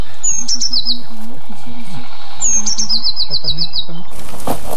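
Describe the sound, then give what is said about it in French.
Blue tit song in two bursts of thin, high-pitched repeated notes, each a quick run of several notes, over a low steady hum. “Un mésange bleu. Une très commune aussi, mais très discrète. Elle fait toujours 2 à 4 notes répétées.”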